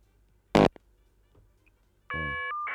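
A telephone ring tone signals an incoming call to a call-in show. It is a bright, loud electronic tone rich in harmonics that starts abruptly after a single sharp click and a stretch of near silence.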